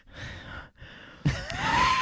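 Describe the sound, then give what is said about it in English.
Heavy, labored breathing from someone walking uphill during a mild asthma attack: long airy breaths, then a thin whistling tone rising in pitch toward the end. “I was going uphill, so I was having a little asthma attack. so bear with. A bit of heavy breathing.”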